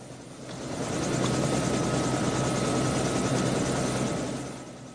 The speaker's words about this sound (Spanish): Fuera, los dos pilotos dejan el helicóptero en marcha